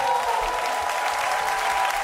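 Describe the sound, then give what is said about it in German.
Audience applause from a crowd, steady dense clapping throughout the whole two seconds, moderately loud with no talk over it. “Bitte steh auf, hol dir deinen Applaus.”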